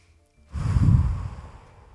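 A single deep breath, heard mostly as a soft, airy exhale through the mouth that swells and then trails away over about a second, with no talk.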